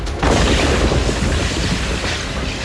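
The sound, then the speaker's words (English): Solid shot and mass-reactive shells explode and ricochet off a bunker wall in a loud, continuous, dense roar of booming blasts, with no clearly separate impacts and no voices. “Solid shot and mass reactive shells caroom off a nearby bunker wall as Invilio tries again.”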